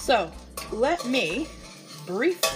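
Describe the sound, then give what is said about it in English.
Hash browns cook in a pot with a soft sizzle and stirring noise running beneath a man talking throughout. “tell you folks about what's going on in this pot right here. So in this pot, I have hash browns.”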